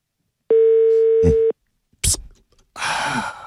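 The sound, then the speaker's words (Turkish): A telephone tone sounds while someone calls a number again: one steady, pure tone lasting about a second, then a short click and a burst of noisy hiss. “Allah Allah, ne oluyor ya? Dur bir daha arıyorum hemen.”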